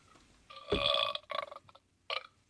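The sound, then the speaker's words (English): A person burps during a live-streamed talk show: one long, loud, rumbling belch is followed by two shorter, choppier bursts after brief pauses. “Because I think I have to burp.”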